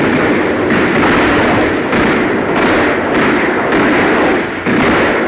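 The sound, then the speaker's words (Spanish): Rockets fired from jet fighters at a flying saucer and exploding close to it: a loud, continuous roar broken by repeated heavy thudding bursts. “Y dispararon proyectiles rockets contra el platillo volador, procurando no hacer blanco, sino solo como advertencia para impedir que se elevase. Los rockets estallaron a escasos metros del platillo volador.”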